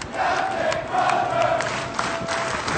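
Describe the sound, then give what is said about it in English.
Navy crew cheering their captain, Crozier, as he walks off the ship after being relieved of command: sustained, steady crowd shouting and cheering from many voices, with no single voice standing out. “This is what it sounded like as his crew cheered him as he walked off the ship after being relieved of his”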